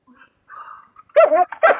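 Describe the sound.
A small dog whimpers faintly as it wakes, then gives a few louder, sharp yelping barks in quick succession near the end.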